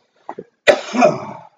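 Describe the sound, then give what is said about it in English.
A man coughs: two short soft throat sounds, then one loud, harsh cough burst with a rough tail that trails off over almost a second. No talking. “That's how you can tell we're recording at your place, because you're usually like just coughing everywhere.”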